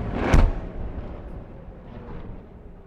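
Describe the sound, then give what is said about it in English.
An Iron Dome rocket interception over Tel Aviv during the Israel-Hamas war produces a single sharp explosive boom, followed by a low rumble that fades away over the next couple of seconds. “Rockets do come. Generally, they come from that direction. That sounded like Iron Dome interception.”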